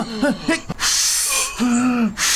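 Breath blown into the mouth of a lifeless king to revive him: a few loud, airy blowing gusts alternating with short voiced straining sounds.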